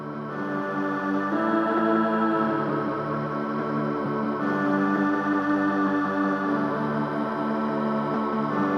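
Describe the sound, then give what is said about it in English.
Lush sustained pad from a tape loop of a pitch-shifted choral cassette recording: steady, continuous layered chords with a soft tape hiss. The harmony shifts slightly a couple of times, and no one speaks. “We can use this to make a tape loop into a really kind of nice lush pad sound.”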